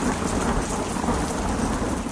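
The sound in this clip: Heavy rain pours steadily through a thunderstorm, a loud, dense, unbroken hiss of falling water with a low rumble of thunder running underneath the whole time.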